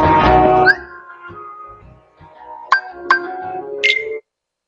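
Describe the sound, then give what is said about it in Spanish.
User interface notification sounds: a loud opening chime, then a string of short electronic tones and bright bleeps at varied pitches, each clean and synthetic, with no talk over them. “Son simplemente sonidos de interfaz, de notificación.”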